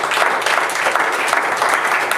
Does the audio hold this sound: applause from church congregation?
yes